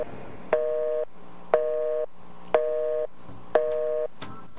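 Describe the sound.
Telephone busy signal on a radio station line that is out of order: four steady mid-pitched beeps at even one-second intervals, each lasting about half a second and separated by short silences, alone with no talk.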